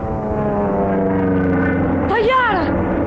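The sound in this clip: A propeller airplane drones loudly and steadily overhead in a low, even hum, and a voice briefly breaks in over it near the end.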